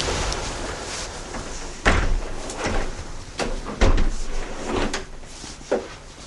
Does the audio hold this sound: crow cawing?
no